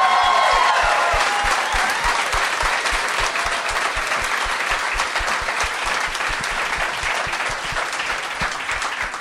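An audience gives loud, sustained applause to welcome a guest, with dense clapping that eases slightly toward the end.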